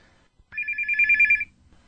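A telephone rings in one electronic burst of about a second, a bright, rapidly warbling tone that stops abruptly, with near silence before and after.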